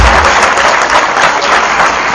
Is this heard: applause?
yes